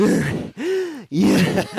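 A man imitates a runner's heavy breathing after running up a walk to a wooden post: three loud, hoarse breaths in a row, the middle one a drawn-out voiced groan, forceful and close together.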